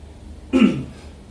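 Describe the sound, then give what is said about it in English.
A single short, rough cough with a throat-clearing edge, heard alone against faint background hiss. “I cough because I need to cough, but also because it feels like the right thing to do.”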